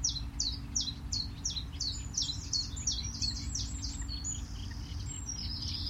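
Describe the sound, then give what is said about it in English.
Reed warbler song: many rapid, repeated chirping notes in a steady chattering run, with a constant low rumble underneath. “reed warbler.”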